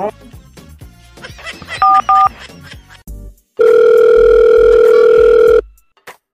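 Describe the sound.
A telephone call is dialed to invite friends to a New Year party: two short keypad-tone bursts over background noise, then one steady, loud tone that holds for about two seconds before cutting off.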